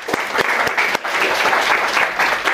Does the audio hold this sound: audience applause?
yes